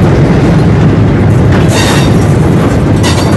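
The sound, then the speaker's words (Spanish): A train rumbles loudly, a dense, unbroken roar filling the whole few seconds with brighter hissing bursts near the middle and end, and no clear rhythmic beat standing out. “El sonido rítmico del tren despierta su imaginación y comienza a soñar.”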